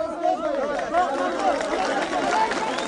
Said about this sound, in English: What you're hearing now is how Ismailis greet their religious leader.